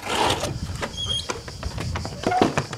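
Window shutters of a long-abandoned ground-floor apartment in Venice's Casetta neighborhood are pried open: a few squeals and scrapes mixed with clunks and rattles of the mechanism, fairly loud and uneven.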